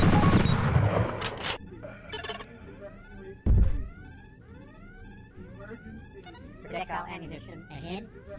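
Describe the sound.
Gunfire and blasts from a shooting video game: rapid electronic shots with many rising, chirping sweeps and one heavy boom partway through, all dense and fairly loud.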